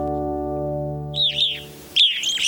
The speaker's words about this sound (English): These evening grosbeaks are enjoying a meal at a bird feeder.